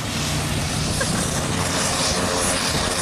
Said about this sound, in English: That is the sound of a protector drone, the RAF's next generation of UAV.